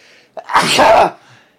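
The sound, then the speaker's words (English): A single loud human sneeze follows a short, sharp intake of breath and ends in a breathy burst that fades out quickly. “now I'm gonna sneeze”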